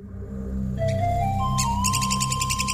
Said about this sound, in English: That's the sound of one of the best excavators in the natural world, the red-cockaded woodpecker.